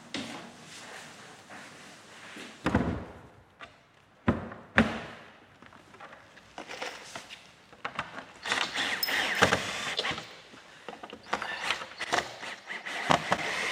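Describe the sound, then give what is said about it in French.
Metal clatter and scraping as a zinc lid is closed onto the inner zinc casing of a coffin. Several knocks and thumps are followed by a brief quiet gap, then ongoing rustling, bumping and clanking. “Là, on referme le couvercle.”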